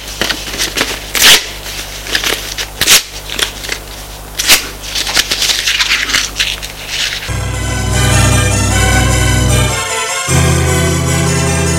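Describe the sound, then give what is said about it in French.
A paper letter is torn up in several crisp ripping and rustling bursts, then a sustained tonal music bed takes over. “Déchire cette lettre, c'est ridicule. Et il déchire la lettre devant elle.”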